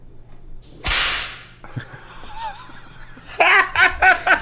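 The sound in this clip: A single sharp whip crack snaps out loudly, followed after a short gap by a few bursts of laughter.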